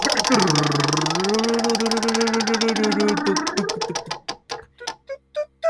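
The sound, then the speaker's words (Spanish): A game wheel spun during a tabletop role-playing session, giving rapid ratcheting clicks that gradually slow and spread apart until it comes to rest, with a voice speaking over the early part of the spin. “Yo voy a girar la rueda ahora”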